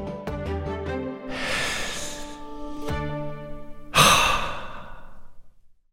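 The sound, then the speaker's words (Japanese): A slow deep breath with no talking: a long airy inhale, a short pause, then a louder sighing exhale that tails off quietly. “ふにゃふにゃのスポンジマインドを持つためにここで一回一緒に深呼吸しよう”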